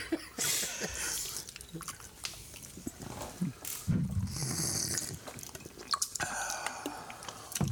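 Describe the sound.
Congested, heavy breathing through a blocked nose while eating pizza: wet, snuffling snorts and rasping breaths in irregular bursts, with some talking between them.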